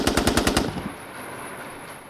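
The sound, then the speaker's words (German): Gunshots fired from a handgun at a machine in a crime drama, striking the ceiling: a rapid, evenly spaced volley of several sharp shots in under a second, followed by a fading ring. “Insgesamt fielen 7 Schüsse, Tote keine, Verletzte die Decke.”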